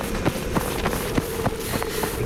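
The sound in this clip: Children run off on foot: many quick, light footfalls in a steady, fast rhythm over a constant noisy background.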